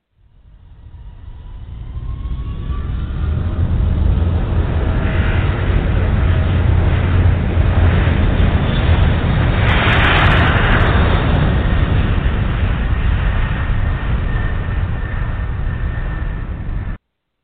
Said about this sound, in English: Wind 10024, runway 13 right, clear to take off. Roger, we're on the roll.